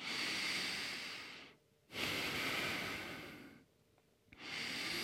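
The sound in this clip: Slow, deep breathing during a yoga flow: long airy breaths of soft steady hiss, broken by two short quiet pauses, with no talk.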